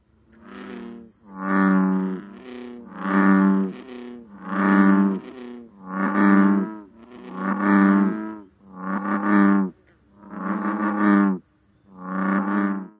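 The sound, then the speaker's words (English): Deep bass calls of an American bullfrog, a large frog up to 8 inches long, repeated in a steady series of resonant, droning croaks rich in harmonics, each about a second long, with no voices. “The American bullfrog is Virginia's largest frog, growing to as much as 8 inches in length. That size helps account for its deep call,”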